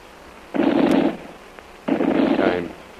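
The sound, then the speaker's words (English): Machine-gun fire in two sustained bursts, each about half a second long, separated by a short pause, loud against a quiet background. “Come to window with lamp. Machine gun start shooting, Tuan.”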